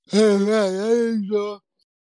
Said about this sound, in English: The fuck was that? That was that good yawn, yo. That was a father. That was definitely some father shit. That was a Father's Day yawn.